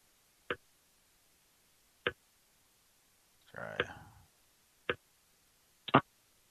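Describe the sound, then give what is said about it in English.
Button presses as a five-digit zip code is keyed into a phone keypad during an automated call: sharp, isolated clicks spaced well apart, with a brief, softer muffled sound between them. “I'm entering. It's like I'm entering too many numbers, but I'm pressing 5 numbers.”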